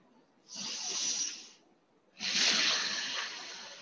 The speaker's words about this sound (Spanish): Inhala y exhala.